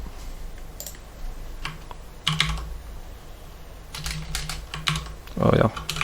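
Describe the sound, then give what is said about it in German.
Typing on a computer keyboard, pressing Ctrl+C to stop a running Docker container in a terminal: many scattered, uneven key clicks, fairly faint, with a few louder bursts of keystrokes. “Das heißt, wir drücken hier STRG C, um das abzubrechen.”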